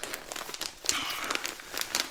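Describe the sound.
Paper crinkling as a soft, wrapped package is unwrapped, with irregular bursts of crisp rustling and crackling of moderate loudness.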